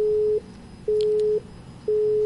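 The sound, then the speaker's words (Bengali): A telephone busy tone after a call disconnects: a steady, mid-pitched electronic tone in three even on-off bursts with short gaps between them, heard alone without voices. “Phone চলে এসেছে আর একটি phone, আবারও সংযোগ বিচ্ছিন্ন হয়ে গেল।”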